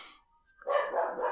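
Dog barking heard alone: a short burst of rough, rasping barks running for under a second after a brief quiet gap, moderately loud with no talk.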